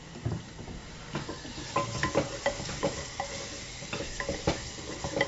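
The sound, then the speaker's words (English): Minced garlic scraped into a pan and sizzling in olive oil with anchovies: a soft, steady frying hiss, broken by many light scrapes and taps of a utensil against the pan, all fairly faint. “And now I'm scraping in my little minced up garlic.”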